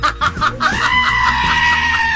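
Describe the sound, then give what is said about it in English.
A person's voice imitating a goat's scream: a few choppy, bleating bursts lead into a loud, high, strained cry that wavers and is held for well over a second. “I still need one goat scream.”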